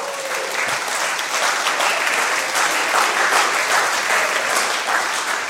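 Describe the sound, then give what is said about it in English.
Sustained audience applause greeting a guest as he is welcomed forward, dense clapping at an even, full loudness from start to finish with no voices over it. “So put your hands together. Let's welcome Andrew Green.”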